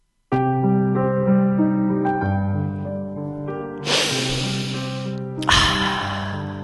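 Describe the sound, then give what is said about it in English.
A deep breath, heard as two loud, breathy hissing bursts over a sustained, droning musical chord. The first breath lasts about a second; the second comes shortly after. “He missed the deep breath, you know.”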